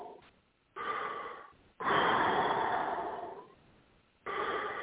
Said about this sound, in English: Deep breath. Do as you're told. Obey. I am. Deep breath.